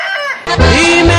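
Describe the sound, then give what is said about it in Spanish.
Fighting roosters crow in a cockfighting pen, a brief, loud burst in which one harsh call runs straight into a second, stronger one. “En la gallera será porque tengo muchos, muchos gallos de pelea.”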